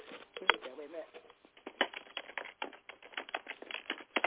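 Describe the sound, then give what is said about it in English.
Keyboard typing, a fast irregular stream of soft clicking keystrokes heard faintly while a person talks. “I know, you can hear the typing. But that happens.”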